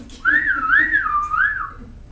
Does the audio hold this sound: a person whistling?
yes

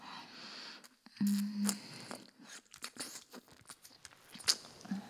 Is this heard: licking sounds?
yes

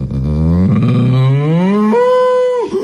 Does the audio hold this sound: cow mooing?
yes

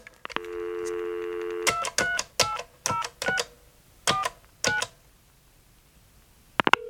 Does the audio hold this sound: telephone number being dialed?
yes

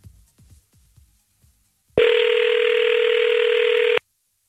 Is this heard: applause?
no

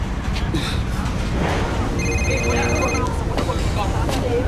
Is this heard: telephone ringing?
yes

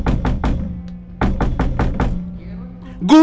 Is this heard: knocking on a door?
yes

